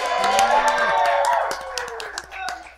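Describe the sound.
A live studio audience cheering and clapping, with whoops and raised voices over a burst of hand claps that is strongest in the first half, then thins into scattered claps.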